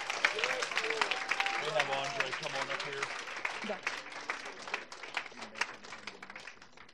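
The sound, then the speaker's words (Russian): An audience applauds during a church service, a steady wash of many hands clapping with voices mixed in above the clapping throughout. “Let's just give the Lord a hand. Давайте воздадим Thank you, God. Богу хвалу, похлопаем ему, да?”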